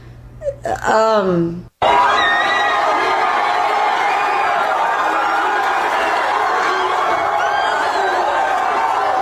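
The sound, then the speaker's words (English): A stadium crowd boos Donald Trump at the Texas-Tennessee college football game, a sustained, loud, unbroken roar of many voices that follows a brief voice at the very start. “Donald Trump was resoundingly booed at the Texas-Tennessee game last Saturday”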